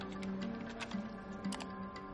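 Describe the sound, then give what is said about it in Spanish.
Typing on a computer keyboard: a few sparse, light key clicks spread across the moment, faint against a steady tonal background. “Borra y teclea Luis Carroll.”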